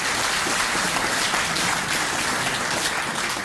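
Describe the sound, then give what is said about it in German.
Steady applause from an audience, a dense and fairly soft rush of many hands clapping together at an even level throughout, with no talking over it. “jetzt dürft ihr mal die Männer klatschen für die Frau, das macht ihr wunderbar”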